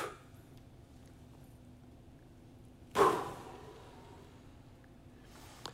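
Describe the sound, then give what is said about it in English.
A crowd drawing a deep breath together: one broad, breathy swell midway that fades over about a second, then a faint second breath near the end, over low room murmur. “Everybody kind of sit up straight, take a deep breath, even if you're watching online.”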